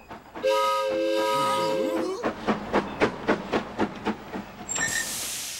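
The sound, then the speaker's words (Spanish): A ride train with a steam whistle passes: a loud, sustained, multi-toned whistle, then a fast, regular run of chuffing clacks, ending in a burst of hissing steam. “¡Miren! ¡Un tren de paseo! ¡Vamos a dar una vuelta!”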